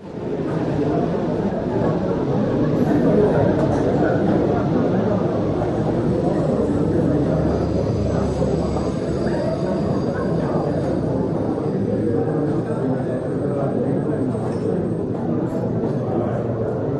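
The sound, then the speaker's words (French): Café ambience near a train station: a dense, steady wash of murmuring voices and clatter over a low rumble, holding at an even level throughout. “Un café près de la gare, là où vous habitiez, c'est ce que vous nous aviez demandé.”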